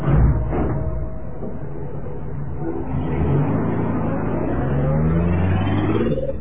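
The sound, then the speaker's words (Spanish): A luxurious black automobile drives off with a continuous low engine rumble and hum that swells slightly toward the end, with no voices over it. “Ya suben al auto.”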